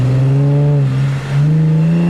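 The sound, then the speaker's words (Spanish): A police patrol car speeds past toward the obelisk during a street protest, its engine a loud, steady, low droning hum that dips briefly midway before resuming at full strength. “Un auto policial pasa a toda velocidad en dirección al obelisco.”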